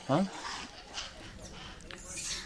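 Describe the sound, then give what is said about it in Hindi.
A monkey gives a brief, loud, harmonic call at the very start near the Asheshwar Mahadev temple, then fainter scattered sounds and soft background noise follow. “पीछे देखो बंदर लोग, आप जो बोल रहे हो सुन रहे क्या? आप उनकी बोली को सुनते हो?”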